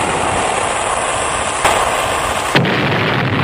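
Torpedo-launch sound effect: a loud, continuous roaring rush of noise, broken by two sharp bursts, the second dropping into a thinner, hissing tail.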